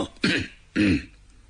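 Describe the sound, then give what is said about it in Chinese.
Two short, dry coughs that clear the throat, voiced by a storyteller acting out an official holding a memorial. Each cough is brief and distinct, with a pause between them and no other speech. “这文官捧着这表彰啊，站在这会儿干咳嗽两声”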